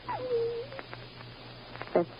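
A dog whimpers in a thin, low-fidelity recording: a high whine slides down and holds steady, then a brief, sharper whimper follows after a pause. It is fairly faint against a low background hum.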